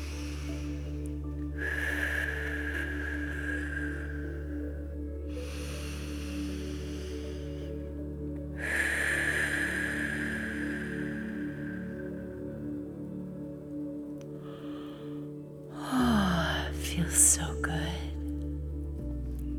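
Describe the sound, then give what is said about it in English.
Slow, deep breathing in and out, with a few long, soft, airy breaths that swell and fade over a low, steady tonal background. “Honoring the breath, releasing out, honoring the breath,”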